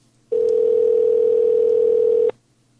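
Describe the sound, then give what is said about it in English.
A steady telephone dial tone hums alone at one constant pitch for about two seconds before cutting off abruptly. “I'm going to call her back one more time.”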